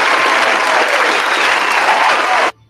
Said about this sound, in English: it is time for the applause. Right here.